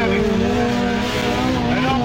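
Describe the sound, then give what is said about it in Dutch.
Race car engine roaring at an autocross event, a loud, continuous droning growl with a strong buzzing tone that holds fairly steady throughout. “We zitten op de autocross in Sarustervingen.”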